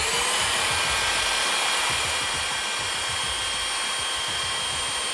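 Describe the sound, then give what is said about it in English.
Steady whirring of a sanding machine grinding down the studs of a football kicking cleat, a continuous even drone with a faint high whine that holds unchanged throughout. “When I came here, this is the sand machine, but in college they had like a Dremel where I would kind of use that to sand it down”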